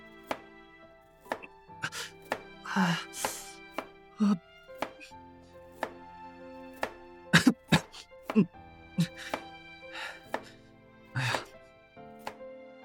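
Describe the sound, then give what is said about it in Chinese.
Many knife chops land on a cutting board as onion, potato and broccoli are cut into small pieces for curry. The sharp thuds come irregularly, with a few coughs and a soft sustained tone underneath. “切菜竟然是这么烦人的一件事情”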